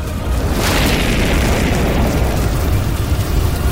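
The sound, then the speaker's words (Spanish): A wall of fire erupts with a loud, sustained roar: a dense, rumbling burst of flame that swells at the start and holds steady to the end. “Una muralla de fuego se levantó”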